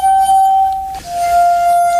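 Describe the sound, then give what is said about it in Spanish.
Crystal wine glasses tuned with water and played as an instrument, giving a sustained, pure ringing tone that breaks briefly midway and then resumes at a slightly lower pitch. “Luego hay instrumentos que realmente emiten sonidos extraños e inquietantes. Por ejemplo, las copas de cristal.”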